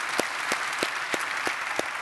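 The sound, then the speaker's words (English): An audience applauds to welcome each other across church campuses, with steady crowd clapping and six sharp, evenly spaced claps standing out close by over about two seconds. “Would you just help me by applause? Would you just welcome each other on all the different campuses and those that are joining us online right now?”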